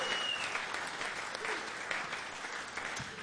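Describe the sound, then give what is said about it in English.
Audience applause at the close of a live show, a steady wash of many hands clapping at an even, fairly faint level throughout. “I bet a big, big hand for Myron.”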